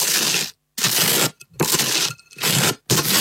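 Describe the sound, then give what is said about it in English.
Butter being spread on toast with a knife: dry, rasping scrapes in repeated short strokes separated by brief pauses, fairly loud and alone. “Spreading something on toast. Yeah, it's spreading butter on toast.”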